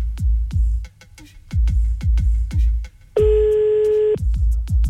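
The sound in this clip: A steady telephone ringback tone, heard while calling a number back, sounds once for about a second over a loud, thumping music beat.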